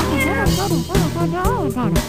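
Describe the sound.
A cat meows several times in a row, each call a wavering tone that bends up and down in pitch, loud and close together, over a steady background.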